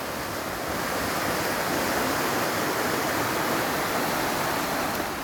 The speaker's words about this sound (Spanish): Pues la tormenta, este es el sonido de la tormenta de ayer